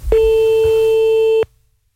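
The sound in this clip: A single telephone line tone sounds while calling someone back after a cut-off call. The clear, steady tone holds for just over a second and then stops abruptly, with no talk.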